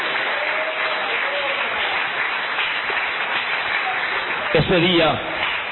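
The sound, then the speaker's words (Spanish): Congregation applause for God during a religious testimony gathering, a continuous, dense patter of clapping at a steady level, with a voice briefly rising above it near the end. “Denle aplauso al Señor, denle el aplauso al Cristo que vive,”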